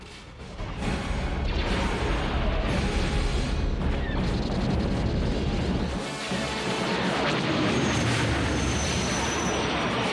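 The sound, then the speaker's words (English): Starship engines roar and laser fire crackles as a thruster-driven starship races over a sand-colored planet surface, chased by a gigantic spaceship; a dense, loud, steady roar runs throughout with sharp bursts mixed in. “A starship with 11 thrusters boosting it along races over the sand-colored surface of one planet, being pursued by a gigantic spaceship. Red and green laser fire is exchanged between the two ships.”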